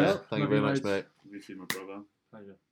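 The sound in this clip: A single sharp high-five slap between two people, one crisp smack set among spoken voices.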